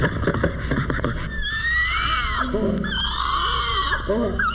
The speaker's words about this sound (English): this drill, and these spider monkeys with their excited gossip.